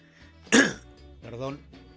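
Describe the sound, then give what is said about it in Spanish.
A smoker clears his throat and coughs, with one sharp, loud, rasping burst followed by a softer, more voiced cough. “Perdón, estoy con la garganta, es que no, siempre estoy con la garganta y sigo fumando.”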